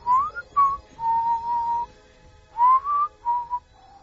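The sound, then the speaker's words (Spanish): Human whistling, a series of clear tonal notes with short gliding rises and held steady tones, moderately loud and heard alone with brief pauses between phrases. “un silbido detrás de ti”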